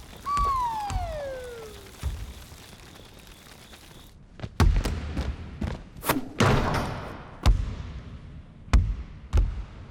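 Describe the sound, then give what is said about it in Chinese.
A basketball shot at a hoop misses, followed by a series of hard, hollow thumps and bounces, several sharp impacts spread across the second half with quieter gaps between. “今天这篮筐怎么也跟我有仇啊？怎么投都投不进。”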